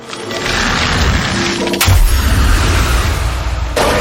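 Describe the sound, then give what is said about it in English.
A loud Freeze Ray attack effect from a video game battle: a dense, sustained crashing roar with a sharp booming burst near the middle and another hit near the end. “Choose a move. Freeze Ray.”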